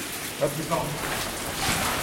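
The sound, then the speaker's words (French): Water seeping into a tunnel gallery and dripping, heard as a steady rain-like hiss with a couple of brief, faint drop plinks near the start. “On vient de passer une section de galerie où il y a une venue d'eau.”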